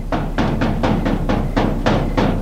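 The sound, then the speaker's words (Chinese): Someone knocks on a door in a fast, even series of many dull, fairly loud thuds. The beat stays steady throughout, with no voices. “外面有人敲门。”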